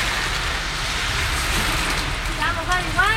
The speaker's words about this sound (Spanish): Ahí está, ese es el sonido de la lluvia.